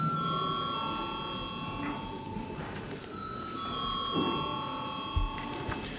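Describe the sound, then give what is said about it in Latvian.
An electronic bell rings in a parliament chamber to call members before a vote, sounding as sustained pure tones in overlapping sequences over a low murmur of voices. “Lūdzu zvanu.”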